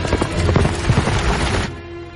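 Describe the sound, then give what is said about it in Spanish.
Hooves of a horse pulling a cart clip-clop in a quick, loud, steady rhythm, many beats in a row before the sound thins out abruptly near the end. “sube a un carro tirado por un caballo”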